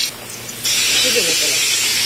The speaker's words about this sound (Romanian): Lăsăm puțin să se calească ardeiul.